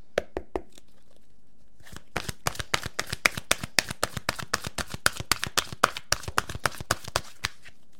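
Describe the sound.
Oracle cards being shuffled give a few sharp taps, then a short pause, then a long run of many quick, crisp riffling snaps in a fairly steady rhythm. The sound is soft and has no talking over it.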